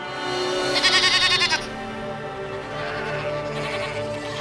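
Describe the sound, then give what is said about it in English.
A young goat gives a loud, quavering bleat with a pulsing waver, then fainter bleating carries on under a steady background. “Then Mikros looked over his shoulder and let out another, louder bleat.”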